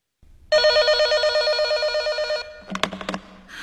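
A telephone rings with one long, trilling electronic burst lasting about two seconds, then stops and is followed by a few brief, sharp sounds.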